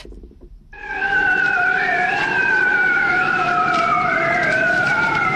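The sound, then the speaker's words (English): Bearded seals calling during breeding, recorded underwater in the Arctic Ocean: a loud, sustained warbling trill with slowly wavering, gliding pitch, rising abruptly after a brief quiet start and continuing steadily. “That is the sound of bearded seals breeding, recorded underwater in the Arctic Ocean, and it's just been crowned Sound of the Year.”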